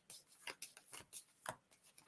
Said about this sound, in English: I'll pull a card for you too,